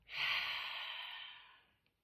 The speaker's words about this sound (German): Zweimal durch die Nase ein und lang aus.